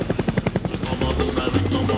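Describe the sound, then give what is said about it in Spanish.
A helicopter flies around overhead, its rotor blades making a steady, rapid thudding pulse over a continuous engine drone. “el helicóptero por ahí, lo siento por ahí,”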